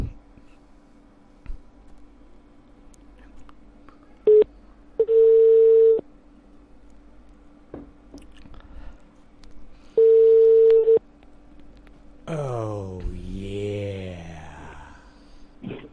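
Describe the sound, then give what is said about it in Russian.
Telephone tones on an outgoing call: a short beep, then two steady one-second tones several seconds apart over a faint hum. A voice comes on the line at the end. “Все, идет набор.”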